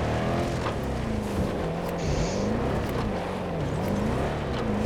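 A car engine drones steadily in a video game, its pitch wavering up and down as the vehicle is steered left and right, with no pauses throughout.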